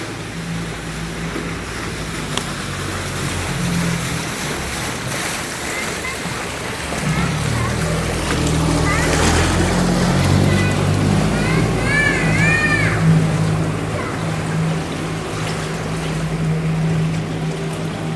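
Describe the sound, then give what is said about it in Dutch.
Recording of the Gulf Stream ocean current: a steady, broad rushing wash over a low droning hum, growing louder from about seven seconds, with a few brief chirping tones partway through. “Weet je wat ik heb net binnengekregen? De opname van de golfstroom.”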